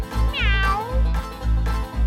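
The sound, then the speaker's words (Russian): A cat gives a single meow that slides downward in pitch, heard over a steady, rhythmic low music beat. “Кошечка, кошечка мяу-мяу-мяу, кошечка мяу-мяу-мяу, кошечка мяу-мяу-мяу. А я кошка.”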